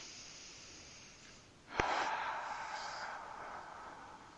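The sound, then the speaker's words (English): A single deep, comfortable breath taken during a tapping therapy session for anxiety: a sudden airy rush that swells and then slowly fades. No one speaks. “Let's take a comfortable breath.”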